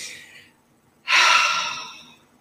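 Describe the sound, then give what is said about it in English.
A deep breath: a soft airy breath fades out, then after a pause a long, loud intake of air rushes in and tapers off slowly. “I'm breathing.”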